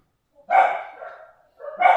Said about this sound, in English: Sorry about the dogs, everyone. I'll do my best to edit them out.